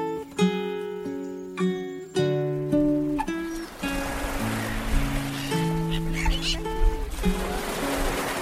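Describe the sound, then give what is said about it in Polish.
Seagulls call by the sea in faint, scattered cries, with a steady wash of surf filling the second half. “Ach, jak pięknie pachnie morzem. Mewy słychać.”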